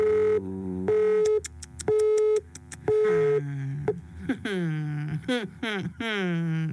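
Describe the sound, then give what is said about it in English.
A telephone busy signal: a few loud, steady tone bursts pulsing on and off at an even rhythm, followed by a voice speaking. “The number you have dialed is busy. Please try again later.”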